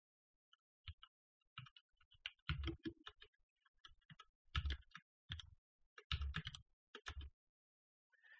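Typing on a computer keyboard: irregular bursts of crisp clicking keystrokes, some lone taps and some quick clusters, with no voices.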